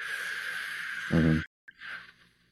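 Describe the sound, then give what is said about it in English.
A slow, controlled exhalation in a breathing demonstration: a steady breathy hiss that ends in a brief voiced tone, then a short pause and a softer second breath. “We call that a controlled exhalation, where you focus on the air going out and focus on the air going out slowly like this.”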